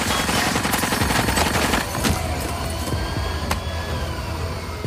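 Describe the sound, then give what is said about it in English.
A few sharp gunshots ring out during a police hostage standoff, cracking through a loud, dense, continuous noise. “Shoot her! Shoot! Shoot!”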